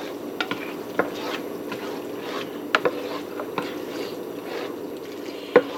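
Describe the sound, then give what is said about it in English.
Ingredients for macaroni and cheese being stirred together, a soft, steady wet churning broken by a few light clicks of the utensil, with no talk. “And start mixing that in.”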